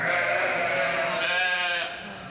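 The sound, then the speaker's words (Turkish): A sheep beside a newborn lamb gives one long, wavering, nasal bleat that fades near the end. “İki koyunun da dilleriyle temizlemeye ve sahiplemeye çalıştığı yeni doğan kuzu iki taraftan gelen ilgi karşısında ne yapacağını şaşırdı.”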